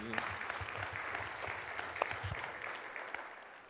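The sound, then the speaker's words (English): A church audience applauding to welcome a speaker: dense, steady clapping that holds for a few seconds at a fairly faint level. “Welcome, Matt. Give him a hand.”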